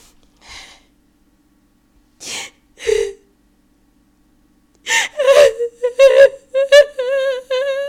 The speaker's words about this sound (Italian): E a quel punto lì io mi gioco tutto. Scoppio a piangere, così.